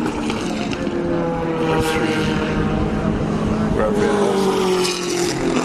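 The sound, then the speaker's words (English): Vintage race cars (Datsuns, Mazdas, MGs and a Porsche) racing around a circuit corner make a dense, continuous engine roar, with overlapping engine notes shifting in pitch. “This is a great race. This is, again, vintage. I see Datsuns, Mazdas, MGs, Porsche. It's a real mixed bag.”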